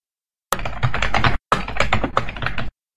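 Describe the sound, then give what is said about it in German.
Typing on a computer keyboard to post on Twitter: rapid, steady clacking keystrokes in two dense bursts split by a short pause, ending abruptly. “Warte, ich schreibe einen Contest auf Twitter aus.”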